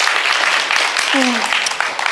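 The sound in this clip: An audience claps during a worship service, a dense, steady wash of applause with voices audible through it.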